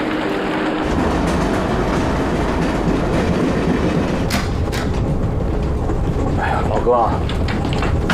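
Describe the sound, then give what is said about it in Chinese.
A passenger train departing a station, a loud, continuous rumble with rhythmic rail clatter throughout, a brief high squeal near the end, and voices mixed in underneath. “请还没有上车的旅客抓紧时间上车，我们马上就要发车了。”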